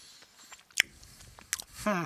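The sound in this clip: A yumberry-flavoured candy is bitten and chewed in a few sharp, crunchy snaps with softer chewing between them, and a voice speaks briefly at the end.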